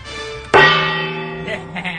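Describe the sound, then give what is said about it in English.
A gong struck once as a sound effect: a sharp metallic hit followed by a long, ringing tone that slowly fades, with faint extra noise near the end. “the Paltrow gong”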